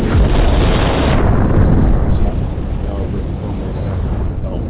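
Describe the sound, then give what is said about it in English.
A bomb explosion sound effect dropped into a radio show: a dense, loud rumbling roar that fills the whole clip and eases slightly after the midpoint. “Go ahead and drop a bomb like 2-3 times right quick before I go ahead and present this music exclusive.”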